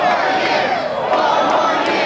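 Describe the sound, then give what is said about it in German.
Cheering from a crowd of thousands of Donald Trump supporters at a protest as he is declared election winner: a dense, continuous roar of many voices with loud shouts rising above it throughout. “Vor tausenden Demonstranten wird Donald Trump zum Gewinner der Wahl erklärt. Die Menge jubelt und wünscht sich 4 weitere Jahre.”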